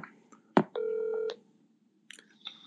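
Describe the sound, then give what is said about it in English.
Telephone dialing: a sharp click, then a steady electronic dial tone lasting about half a second, followed after a pause by a few short, faint beeps. No one talks. “So let's get him on real quick. I'm going to dial him one second. Let's see if he picks up real quick.”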